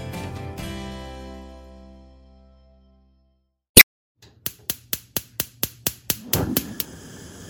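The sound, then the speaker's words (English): A gas stove burner being turned on gives a sharp single click, then a quick run of evenly spaced igniter ticks, then a soft whoosh as the flame catches. “And that sound you just heard is, yes, a gas stove.”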